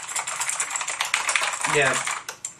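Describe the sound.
Typing on a keyboard with an aluminum backing and a built-in wrist rest: many quick, light, clicky keystrokes in an uneven rhythm, with a voice heard briefly partway through.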